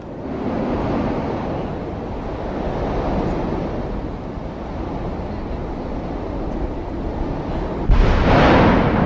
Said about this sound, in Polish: To nie szum morza, tak huczy w środku wulkan i grzmi.